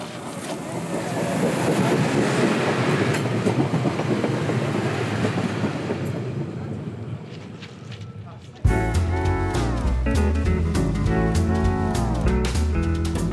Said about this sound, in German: mal zur Information, da kommt noch ein Triebwagen, ja?